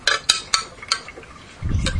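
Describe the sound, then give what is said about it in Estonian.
A tablespoon clinks against a pot as food is stirred: four sharp metallic taps spaced unevenly, followed by a low, rumbling scrape near the end. “Anna üks supi lusikas. Jah, ma natuke segan, jah.”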